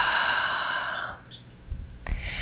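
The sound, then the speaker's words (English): A deep breath is taken, a long, airy rush of breath lasting about a second that then fades to near quiet. “let's take a nice deep breath, please.”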